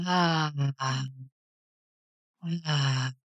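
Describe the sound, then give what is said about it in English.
Audible, voiced out-breaths through the mouth during a calming breathwork exercise: two long, moaning sighs, each with a brief break, separated by a quiet pause for the in-breath through the nose. “So in through the nose, out through the mouth with sound.”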